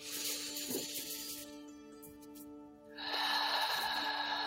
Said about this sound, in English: Taking that deep, slow breath.